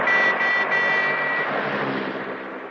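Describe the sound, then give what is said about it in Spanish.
A van slows as it climbs a hill and passes a car. Its engine makes a steady drone with a thin high whine, and the sound gradually softens toward the end. “La furgoneta baja la velocidad según van ascendiendo en la cuesta. Se cruzan con un coche negro.”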